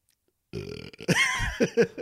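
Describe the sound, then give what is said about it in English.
A long human burp follows a moment of silence: a deep, croaky, drawn-out belch, then a few rougher voiced gulps and bursts. “I'm really sorry about that. But whenever you come back to heaven, the re-entry gives you a little bit of the burps.”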